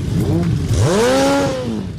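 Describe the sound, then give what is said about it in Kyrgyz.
Motorcycle engines rev loudly on city streets as hundreds of bikers gather for a season-opening ride. A single throaty rev swells upward, holds, then eases back down, with no talk over it. “Ылдамдыкты эңсегендер жана гүлдөгөн мотор. Бишкектин көчөлөрүн жүздөгөн байкерлер каптады.”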